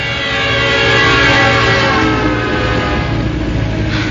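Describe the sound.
A train arrives and passes in a loud, continuous roar of wheels and engine, with sustained horn-like tones layered on top. The sound stays intense from start to finish.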